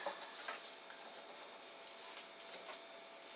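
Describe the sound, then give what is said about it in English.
Meatballs browning in a frying pan give a steady, faint crackling sizzle with scattered tiny pops, continuous for the whole clip with no voices. “Okay, the meatballs are browning up nicely. I'm going to turn them.”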